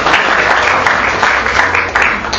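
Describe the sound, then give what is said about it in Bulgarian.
Loud audience applause at a sports ceremony honouring a boxer, a bronze medallist and national champion: a dense, steady roar of clapping that lasts the whole clip, with a few sharper claps poking through. “А още веднъж вашите аплодисменти за Станимир Делчев.”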